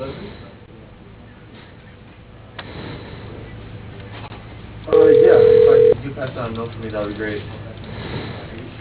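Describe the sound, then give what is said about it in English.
A telephone tone sounds during a call transfer on a phone line: one steady, loud tone lasting about a second, set between stretches of talk. “Please hold on. Hamilton Sundstrand is not available right now. I'll record you. I'll transfer you now.”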